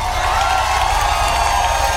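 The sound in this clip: Applause and crowd cheering for a performer, a maestro, as a dense, steady wash of clapping that holds at an even loudness for the whole two seconds.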